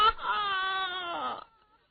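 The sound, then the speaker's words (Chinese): A performer's voice imitates loud crying during a Chinese storytelling recital. One sustained, wavering wail holds steady, then falls in pitch and trails off after about a second and a half. “程咬金可是真哭啊。”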